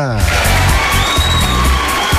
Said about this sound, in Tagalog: tanggapin mo itong 1 million na palakpakan na may kasamang hiyawan